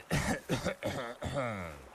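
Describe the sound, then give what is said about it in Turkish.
Loud, harsh coughing, a few rough bursts in quick succession, the last one stretching into a longer, voiced throat-clearing sound. “Aydın, Hızır'ın Dimitros'un yanında kafir lafını kullandığını hatırlatmak için seslice öksürmüştü.”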